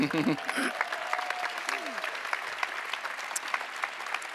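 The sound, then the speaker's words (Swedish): Conference audience applauding a woman being honored: a dense, crackling wash of clapping that holds steady throughout, with a voice or two briefly rising over it early on. “Stor applåd, Johanna.”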